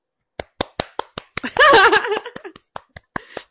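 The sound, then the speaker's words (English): Slow, sparse hand clapping, sharp and evenly spaced, briefly joined midway by a voiced vocal sound before the claps carry on. “I hope that clapping didn't... for my storytelling and not clapping for what happened, because it's obviously not.”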